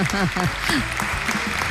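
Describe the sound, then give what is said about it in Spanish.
Audience applause greets a host in Cervera, opening under a brief spoken voice and then settling into a steady, moderate patter of clapping. “Muchas gracias. Aplauso inmerecido, ¿eh?”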